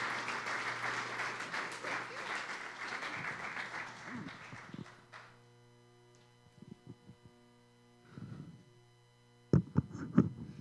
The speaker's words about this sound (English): Could we give Rachel a hand of welcome?